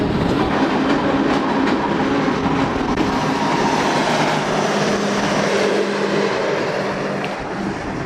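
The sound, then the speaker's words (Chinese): A train on the Qinghai-Tibet Railway pulls into Tuotuohe station, with a loud, continuous rail rumble, steady clickety-clack of wheels over joints and a faint tonal hum that eases slightly near the end. “列车即将驶入沱沱河站，这里也是距离三江源最近的车站。”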